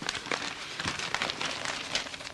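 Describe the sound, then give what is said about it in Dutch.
Newspaper crumpled while things are wrapped in it gives a dense, continuous crackling rustle, moderately loud throughout, with no one talking. “geef me die krant maar, dan kan ik daar alles inpakken.”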